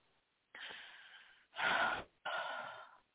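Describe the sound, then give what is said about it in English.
Breathy exhales, three airy rushes of breath with short pauses between them, the middle one strongest, heard alone during an energy healing session. “Exhale real quick.”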